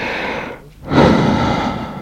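Deep breathing by a patient lying on an examination table during a stethoscope check: one long breath, a brief near-silent pause, then a louder, rushing breath.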